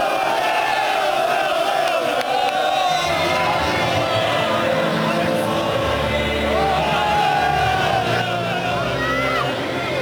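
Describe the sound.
A stadium crowd at the Turkish Super Cup match between Galatasaray and Akhisarspor acclaims the Akhisarspor team. The roar stays loud and steady throughout, with a commentator talking over it.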